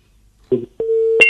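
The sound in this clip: Phone line tone after a call is cut off: a brief low burst, then one steady, sustained electronic tone that holds for about half a second and ends on a short brighter blip.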